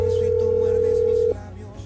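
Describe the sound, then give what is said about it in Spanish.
A telephone dial tone sounds on a radio call-in line as the host dials a listener: one steady, loud, unbroken hum that cuts off abruptly about two-thirds of the way through, leaving only a low background. “Vamos a marcar entonces enseguida a otro oyente.”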